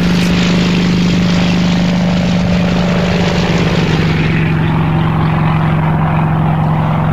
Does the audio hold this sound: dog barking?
no